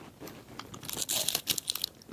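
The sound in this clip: Crunching bites and chewing of a chocolate-flavoured protein bar, a few quick crisp crunches bunched together, fairly faint, with no talk over them.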